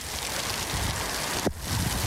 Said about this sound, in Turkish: Kentte güneşli hava yerini kısa süreli yağmura bıraktı. Yarım saat süreli etkili olan sağanak yağış nedeniyle vatandaşlar zor anlar yaşadı.